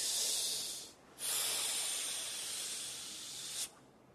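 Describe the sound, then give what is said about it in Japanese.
One slow, deep breath, faint and airy. A long hissing phase is followed by a brief pause and then a second, longer hissing phase that ends abruptly. “深呼吸を一つゆっくりして”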